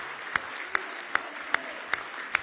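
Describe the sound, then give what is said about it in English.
A church audience claps in praise during a service, with six sharp, loud claps at an even, steady beat over a low murmur of the crowd. “Now let's give Jesus a real big hand clap of praise tonight.”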